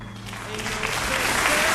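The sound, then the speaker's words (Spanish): Applause from an audience at a radio station's annual awards ceremony: dense, continuous clapping that builds gradually louder over the short stretch and carries on without a break. “Y ahora este aplauso.”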